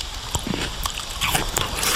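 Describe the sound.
Cutting and biting into a piece of unripe, tart Lidice pear: a loud, continuous run of crisp crunching and crackling without pause and with no talking.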